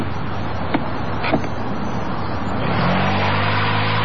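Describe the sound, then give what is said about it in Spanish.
A car pulls away as the clutch is let out and the accelerator is pressed gently during a driving lesson. A couple of faint clicks come first, then the engine settles into a steady low drone that grows louder over the last part. “Apretás el embrague, pones primera y mientras vas largando el embrague, vas apretando el acelerador despacito.”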